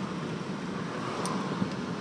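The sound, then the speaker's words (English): Constant low rumble of a car driving through traffic, a smooth, even road and engine drone with no sharp events and no voices. “Nothing exciting about driving through traffic, even if it's sunny.”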